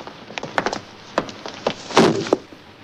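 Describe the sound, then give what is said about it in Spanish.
A policeman stomps on a lizard to crush it, heard as a few hard, woody thuds and cracks scattered across the moment, with the heaviest impact landing near the end and no talking. “Un policía lo aplasta de un pisotón.”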